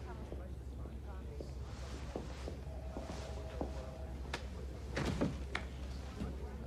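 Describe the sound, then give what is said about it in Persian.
A door is pushed shut, ending in a few sharp knocks and a brief clatter as it closes, over a low steady hum. “میخواستی منو ببینی؟ درو ببند.”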